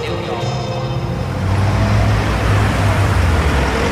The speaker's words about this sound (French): Une belle Rolls, toute noire, avec une plaque anglaise, volant à droite. Et là, une berline Mercedes, dernier cri.